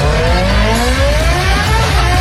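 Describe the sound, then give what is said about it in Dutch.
Roaring motorcycle engines at the TT race, a dense, loud, continuous drone in which several engine notes climb in pitch as the bikes rev and accelerate. “Ronkende motoren, knallende feesten. De TT is in volle gang.”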